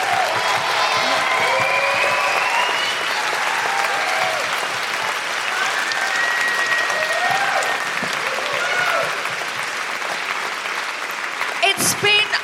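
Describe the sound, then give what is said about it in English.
A live-event audience gives a long round of applause with some cheering, a dense, sustained clapping that eases slightly in loudness toward the end. “can I have a huge round of applause”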